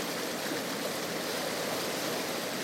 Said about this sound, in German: Wenn der Fluss stärker ist, dann kann man die Wellen hören.